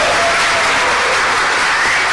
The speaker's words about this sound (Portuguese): o que iria dizer a plateia depois do aplauso natural e espontâneo que ela vai fazer?